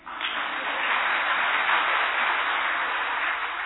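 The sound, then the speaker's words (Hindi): Audience clapping at a talk in Hindi, dense and continuous from start to finish, a steady wash of many hands at even loudness with no voices over it. “तो वो हो गया 13 लाख। बजा दो ताली।”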